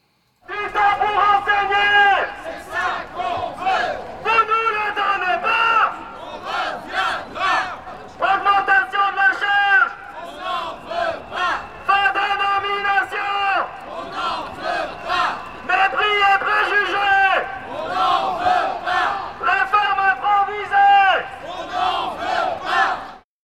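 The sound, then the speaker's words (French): A crowd of protesters at a human chain outside a university chants in unison, with loud shouted phrases repeating in rhythmic bursts and short pauses between them throughout. “Au 20 août, une chaîne humaine se tenait devant l'université. De nombreux manifestants se sont réunis, symbole clair et affirmé de leur position.”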